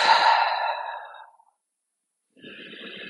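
A forceful exhale through the mouth: one long breathy rush that starts strong and fades out over about a second and a half, then silence before a quieter breathy sound returns.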